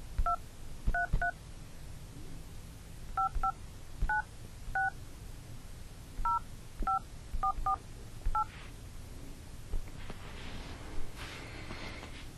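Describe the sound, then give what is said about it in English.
Faint telephone keypad tones dial a number on a prepaid calling line. Many short beeps come in uneven clusters with pauses between them, followed by a few seconds of low line noise. “Please enter the telephone number you wish to dial now, or press star 0.”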